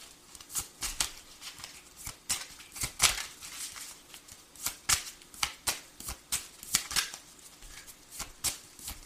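Playing cards are dealt one after another, giving many sharp, crisp snaps and flicks in an uneven rhythm with brief pauses between them and no voices.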